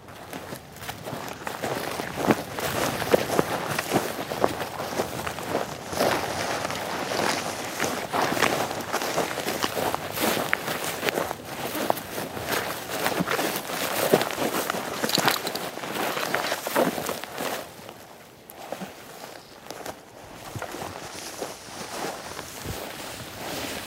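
Continuous crunching footsteps of people walking down through a flower garden, steady and unbroken for over twenty seconds at moderate loudness, easing slightly near the end.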